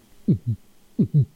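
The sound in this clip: A voice imitates a heartbeat with two low double thumps, each pair a heavier beat quickly followed by a second, separated by a short pause, with no other sound.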